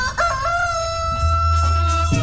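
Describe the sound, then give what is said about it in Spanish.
A rooster crows in one long, drawn-out call that holds a steady, bright tone for nearly two seconds, loud and alone, with a low droning layer beneath its latter half. “El único gallo que me canta ya”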